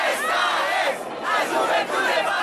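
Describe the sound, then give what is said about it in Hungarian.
A huge crowd of young people at a papal youth gathering chants a slogan in unison. The massed voices sound loud and continuous, swelling in a few rhythmic surges. “A hatalmas tömeg a pápa ifjúsága vagyunk szlogent harsogta.”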